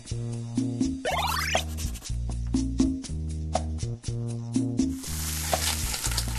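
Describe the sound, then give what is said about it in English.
Cooking and diner effects from the video game Diner Dash: a steady sizzle of frying under bright, bouncy tonal jingles, a quick rising chirp near the start and a burst of hiss toward the end. “Okay, I've got to seat the customers, get their orders. Come on, chef, get cooking. Okay, the order's ready. Other people need their order taken. Okay, got to bust these tables, got to get those people seated. Oh, excuse me, I was just playing Diner Dash”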